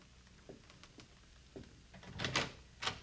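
A door to a room is being opened. A few faint clicks and knocks lead into louder rattling clunks toward the end.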